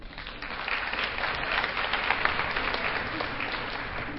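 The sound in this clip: An audience applauds to welcome a speaker at a scientific talk. The dense clapping holds steady for about four seconds after a slightly softer start.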